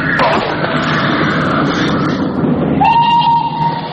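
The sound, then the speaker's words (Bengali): A train approaching: a loud, steady roar of wheels and rail noise that fills the whole stretch, joined partway through by a sustained, even whistle tone. “এমন সময় কুলিরা এসে খবর দিল train আসছে”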